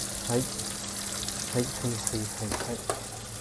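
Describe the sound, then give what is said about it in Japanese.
Onions hiss in a pan as they are stir-fried, giving a faint, steady sizzle. A few brief scraping stirs break through the sizzle, and a voice speaks briefly. “いい感じになるまで炒めたいなと思います。こっちにも入れておくか。こっちにも入れておいて、はい。玉ねぎをぶち込みたいと思います。”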